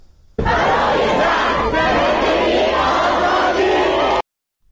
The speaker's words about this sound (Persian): در دانشگاه قم هم تجمع دانشجویان رو داریم که تجمع کردن، تجمعشون همچنان ادامه داره و اونها هم صدای شعارشون رو داریم اینجا.